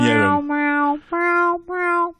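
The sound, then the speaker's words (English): Cartoon cats meowing on a wall, voiced as drawn-out, tonal meows. There are three in a row: a long, bright first meow, then two shorter ones separated by brief pauses. “And they meow, meow on the wall.”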